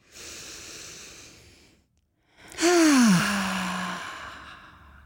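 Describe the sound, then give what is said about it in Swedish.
A person takes one deep breath. A long, airy inhale is followed by a brief silence, then a louder, drawn-out exhale that starts with a short voiced sigh dropping in pitch and slowly trails away. “Vi tar tre djupa andetag.”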